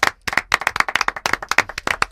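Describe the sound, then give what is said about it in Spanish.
An audience claps to honour the newly named llamador on the eve of Lent. Sharp, separate claps come in quick, uneven succession, loud and alone, sounding like a modest group rather than a big crowd. “va a ser nuestro llamador, vamos a darle un aplauso.”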